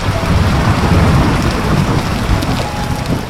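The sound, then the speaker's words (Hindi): Heavy rain pours in a dense, loud, unbroken hiss that stays steady from start to finish, with no voices. “फिर सिद्धार्थ ने खिड़की के बाहर देखा। बारिश तेज हो चुकी थी।”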